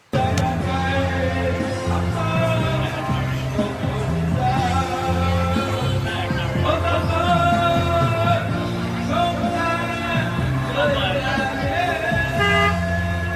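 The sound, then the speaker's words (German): Street traffic in Vietnam forms a loud, unbroken din of overlapping horn toots and honks over engine rumble, dense and busy for the whole stretch. “sondern wirklich auf offener Straße. Du wirst da beschallt. Ihr habt ja keine Vorstellung. Und deswegen habe ich euch jetzt ein paar Soundschnipse mitgebracht. Einfach mal zurücklehnen, einfach mal genießen. Welcome to Vietnam.”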